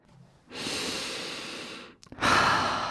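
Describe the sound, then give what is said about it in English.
A slow, deep breath drawn in and then let out, a long soft inhale, a brief pause, then a fuller exhale, alone without talk. “Yes, take a deep breath with me right now.”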